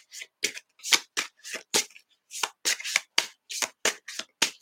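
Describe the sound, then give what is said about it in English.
Tarot cards are shuffled by hand in a quick series of crisp riffling bursts. Many short, bright shuffles repeat in an uneven rhythm with brief silences between them, and no talking is heard. “Okay, let me clear the cards again. There we go. Cleared it.”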